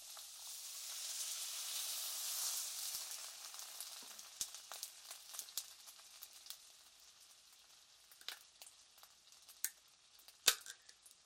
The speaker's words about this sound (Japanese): 続けてお水とトマト缶、ツナ缶を フライパンに流し入れてっと。